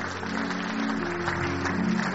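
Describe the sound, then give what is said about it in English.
Audience applause at a church celebration, a steady wash of clapping from a crowd that stays fairly even throughout, with no talk over it. “Please keep clapping as they come.”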